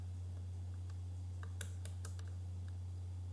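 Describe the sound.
Computer mouse clicking while following an account on Twitter: a few faint, sharp clicks in quick succession over a steady low electrical hum.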